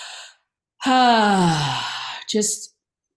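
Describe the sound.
A deep breath drawn in and let out through the mouth: a brief intake, then a long voiced sigh falling in pitch as the air is pushed out, and a short final breath.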